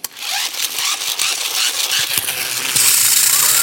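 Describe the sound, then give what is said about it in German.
A dentist's drill works on a tooth with a shrill, grinding whine laced with rapid rattling clicks. The sound runs steadily for a few seconds and turns slightly louder and higher near the end. “Nee, dann lieber Bohrgeräusch. Dann lieber Bohrgeräusch. Das hört sich ungefähr so an.”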